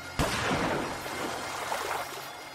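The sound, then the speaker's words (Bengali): Gunshots striking river water, heard as a single sharp, loud bang followed by a sustained rushing splash that stays loud to the end. “পরপর দু তিনটে কান ফাটানো শব্দের সঙ্গে সঙ্গেই নদীর জল এখানে ওখানে ছিটকে গেল। লোকগুলো গুলি ছুঁড়ছে,”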